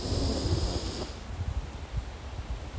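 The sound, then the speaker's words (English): A deep collective breath drawn in during a morning prayer: a soft, breathy rush lasting about a second, then fading into faint low noise, with no talk. “Let us go ahead and take a collective breath.”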